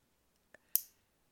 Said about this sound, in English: You cutting your fingernails right now? Yeah. Can we not have that in the background?